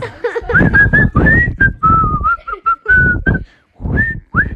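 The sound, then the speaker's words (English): A person whistles a tune to pass the time while sitting by an oven. The melody is made of short, fairly steady mid-pitched notes with brief gaps, and a couple of rising notes come near the end. “he just started sitting there and he started whistling”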